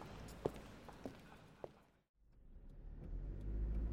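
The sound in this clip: A car drives to a cash-and-carry store. Its faint, low engine rumble, marked by a few soft clicks, drops out briefly and then swells louder toward the end.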